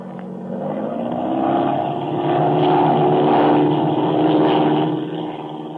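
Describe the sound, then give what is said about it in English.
An airplane takes off with a loud, steady engine drone that swells and holds strong for several seconds before easing slightly at the end. “A perfect takeoff.”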